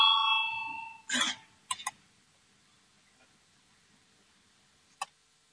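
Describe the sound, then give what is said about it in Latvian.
A bell rung in a parliament chamber to call members to a vote, a bright tonal ring heard at the start that fades within about a second, followed by a few short knocks and clicks in near silence. “Lūdzu zvanu”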